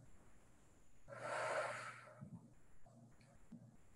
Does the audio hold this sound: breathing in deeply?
yes